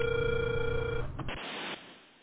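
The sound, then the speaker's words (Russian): A phone ringback tone sounds while a call is being dialled: one steady, mid-pitched tone lasting about a second on a thin line, followed by a stretch of faint hiss. “Алло, здравствуйте. Продолжаю дозвон.”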